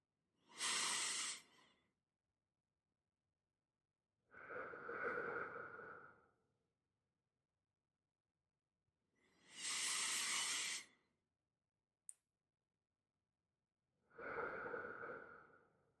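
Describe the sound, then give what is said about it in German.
Slow, deep breathing during a guided relaxation exercise: four long, airy breaths in and out, spaced several seconds apart with silence between them and a brief click near the end. “und einfach nur einatmen und ausatmen.”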